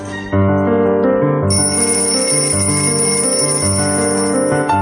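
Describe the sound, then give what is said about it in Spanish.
Alarm clock ringing in the early morning: a loud, continuous bell-like jangle that starts abruptly and holds steady for several seconds, with a brighter, higher rattle joining partway through. “Suena el despertador.”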